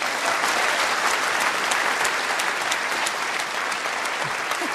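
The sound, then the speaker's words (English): Steady applause from a film audience welcoming a guest to the stage: many hands clap in a dense, continuous wash that holds at an even level for the whole stretch, with no talk over it. “Would you put your hands together, please, for a man who has 2 large ones of his own, Dr. Mark Kermode.”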